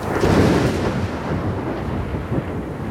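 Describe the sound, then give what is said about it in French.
Thunder following a lightning strike about 1.5 km away: a deep, loud rumble that swells early, then rolls on as a lower sustained growl, with no voices over it. “Il est tombé devant en fait. Putain, le temps de pause est trop long. Donc là, il y a eu à peu près 4 secondes entre. Il a 1,5 km. Il y a eu 4 secondes entre l'éclair et le tonnerre,”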